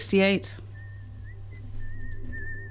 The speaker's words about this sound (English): Should we listen to some of the other whistling that we've got?